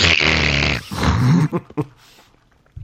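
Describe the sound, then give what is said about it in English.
A voice imitates an exaggerated loud nasal inhale: a strong, rough snorting hiss of about a second, followed by a low voiced groan-like sound and two short sniffing bursts. “His nasal cavities never had such an inhale. Everything was flapping in there.”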